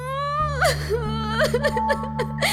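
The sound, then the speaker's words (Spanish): Whimpering and sobbing voiced by a storyteller for a story character, a poor girl who sits down to cry after tiring of trying to climb a slippery table leg. A single voice imitates the crying in wavering, breathy whimpers over a low steady hum. “Y cuando se cansó del esfuerzo, la pobre se sentó a llorar.”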